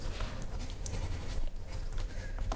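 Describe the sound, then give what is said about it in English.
A pen scratches across paper as a finished drawing is signed, a short run of quiet, uneven scribbling strokes. “Have you signed it? Ooh, I'll sign it here.”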